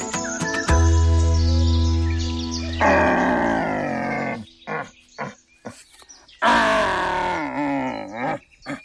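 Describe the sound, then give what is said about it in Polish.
A human voice imitates a deer's call: a long, loud, low bellow held steady, then wavering roaring calls broken into several shorter bursts with gaps between them. “To jest głos jelenia.”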